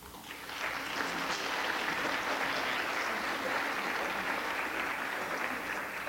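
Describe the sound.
Applause from the audience at a poetry reading as an introducer comes up: fairly soft clapping that swells in over the first second, then holds as a steady, even patter.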